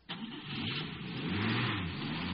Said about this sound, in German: Er fährt zu der Garage.